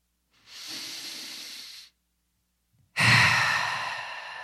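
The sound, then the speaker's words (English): Deep breathing during a guided calming exercise: two long, airy breaths separated by a short silence, the second louder and fuller than the first. “Let's take a few deep breaths.”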